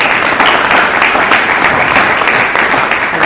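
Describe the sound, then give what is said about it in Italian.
Audience applause thanking the speakers at a lecture series event: loud, dense clapping from many hands, sustained at a steady level throughout with no talk over it. “Quindi io direi che rinnoviamo con un piccolo applauso il nostro grazie”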